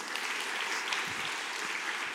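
A church audience gives a round of applause: a steady, even patter of many hands clapping, moderately loud and unbroken for about two seconds.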